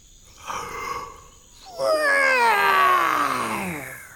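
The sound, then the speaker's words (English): A voice imitates a roar: a loud, drawn-out growling cry that slides downward in pitch as it fades. A softer vocal sound comes shortly before it. “a roar came out. I roared.”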